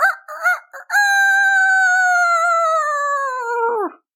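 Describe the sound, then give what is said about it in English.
A pet rooster crows on its perch outside a kitchen window in the morning: a few short, clipped notes, then one long, loud, piercing tone that slowly sinks in pitch and breaks off roughly. “help us greet the morning with his crows right outside that kitchen window. He would fly up to his perch and go,”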